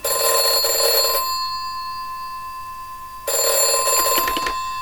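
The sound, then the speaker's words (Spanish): A telephone rings in two electronic bursts: the first lasts about a second, a short gap follows, then the second begins. Steady faint tones linger through the pause between the rings. “Menos mal que sonó el teléfono.”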